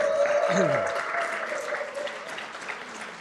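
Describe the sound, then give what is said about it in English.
Audience applause welcoming two invited guests, a steady wash of many people clapping that starts strong and tapers slightly toward the end. “And so, would you give them a hand?”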